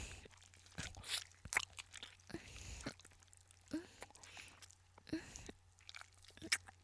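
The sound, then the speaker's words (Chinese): Crisp crunching as someone bites and chews an ice pop: many sharp, brittle crunches in an irregular rhythm, fairly faint, with soft wet chewing between the bites. “老公，我在吃冰棍，这里的冰棍还不错。”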